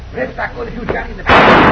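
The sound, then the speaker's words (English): A single sharp gunshot, fired to shoot a gun out of someone's hand, bursts out loud and sustained after a stretch of people talking. “Oh, my hand! Cisco, shot the gun out of my hand!”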